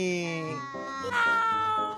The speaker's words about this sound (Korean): 야옹 인사해, 안녕.